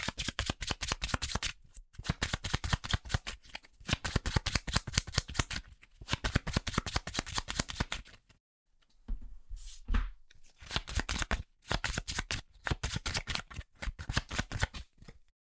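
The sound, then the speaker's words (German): Playing cards are shuffled before a card game, with rapid crisp riffling flutters in repeated bursts separated by brief pauses and a slightly longer break midway, with no talk. “So, dann mische ich mal die Karten.”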